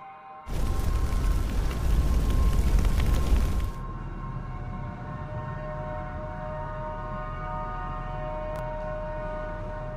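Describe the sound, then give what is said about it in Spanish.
A devastating explosion inside a nuclear reactor: a loud, roaring, rumbling blast lasting about three seconds that cuts off abruptly, leaving a steady low hum with a faint high tone. “una explosión devastadora.”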